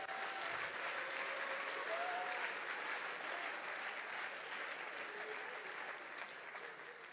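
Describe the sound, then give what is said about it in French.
Sustained applause from an audience acclaiming the Lord during a church sermon, a dense, steady wash of clapping that holds at an even loudness throughout and eases off slightly near the end. “on acclame le Seigneur, s'il vous plaît.”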